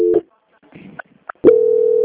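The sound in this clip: A steady, low telephone tone marks a call transfer. It sounds briefly at the start, gives way to a few faint clicks, then returns and holds evenly to the end.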